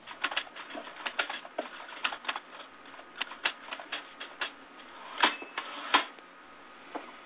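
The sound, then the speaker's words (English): Typewriter keys clacking as an answer is typed out, many irregular, fairly faint, muffled clicks with uneven spacing and a few louder strikes. “Let's see if he'll type us an answer.”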